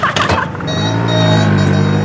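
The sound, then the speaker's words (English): A motor scooter rides off in a Teenage Mutant Ninja Turtles II film scene: a brief noisy rustle, then a loud, steady engine drone with a strong buzzing hum that holds to the end. “And he does that annoying laugh and takes off on his scooter.”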